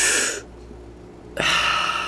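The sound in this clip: Deep breathing during a guided breathwork exercise: a long, airy exhale, then a quiet pause and a strong, hissing inhale. No voices are heard.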